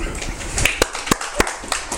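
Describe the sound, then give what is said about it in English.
A church audience clapping, heard as several sharp, scattered hand claps at uneven intervals over a low background murmur. “Now, come on, give God a clap offering.”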